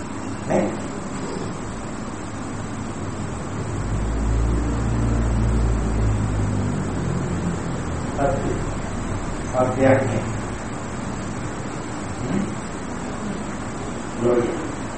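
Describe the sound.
A voice imitates a vehicle engine with a low, droning hum held for about two seconds in the middle, surrounded by ongoing talk.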